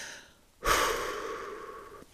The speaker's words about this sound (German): Augen schließen, tief durchatmen.